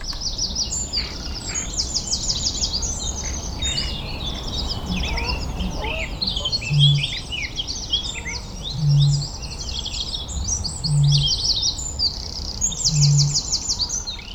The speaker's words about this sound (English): The Dawn Chorus is a symphony of song performed by birds who are mating and trying to defend their patch. Some species sing throughout the day, but dawn is the best time to hear the birds sing together.